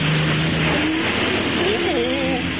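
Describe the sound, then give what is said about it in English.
Car driving, heard as a steady, even engine and road rumble that holds at the same level from start to end. “this is like driving on Mulholland”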